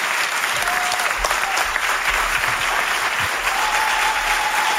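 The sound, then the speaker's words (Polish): Audience applause greets musicians being introduced at a live concert for a radio program: dense, steady clapping that holds at an even level for about five seconds without a break. “Prosimy o klaski, stremowani bardzo.”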